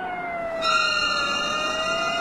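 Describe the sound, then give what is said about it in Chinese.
A police car siren sounds in the distance, a steady sustained wailing tone joined partway through by a higher, brighter tone, holding on without pause. “远处忽然响起了警车声。”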